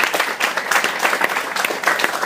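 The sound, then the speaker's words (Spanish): Audience applause fills the space, a dense, continuous patter of many hands clapping for a guest, fairly even in loudness with small swells throughout and no voices standing out. “Señores, me gustaría pedirles un aplauso para el buen Carmix”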